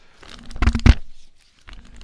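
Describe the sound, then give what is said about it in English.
A large law dictionary being handled gives a few muffled thumps and papery rustles, loudest near the middle, with a quieter rustle at the end and a faint steady hum underneath. “You hear that? That's the Black's Law Dictionary.”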